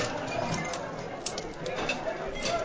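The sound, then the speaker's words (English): Generic Dungeons and Dragons tavern ambience: a dense, continuous bed of crowd chatter with scattered light clinks and clatter running throughout, fairly loud and steady. “People milling about, chatting, there's a fireplace in the background, some footsteps, some clanking. Cutlery, clanking.”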